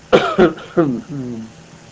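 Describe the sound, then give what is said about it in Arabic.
A person gives three short, sharp coughs in quick succession, then a lower, drawn-out voiced throat-clearing sound that fades out. “دعني أسعل قليلا”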